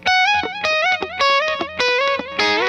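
Electric guitar played through a DD8 digital delay pedal set for slapback: a quick run of bright plucked notes in a repeating rhythmic phrase with a short echo, fairly loud and alone, ending on a fuller strummed chord.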